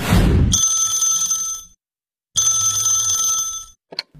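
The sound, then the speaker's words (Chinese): Telephone ringing at home in a residential neighbourhood: two long, bright bell-like rings separated by a pause, ending with a short click, after a brief burst of noise at the start. “老何就接到了一个让他特别开心的电话”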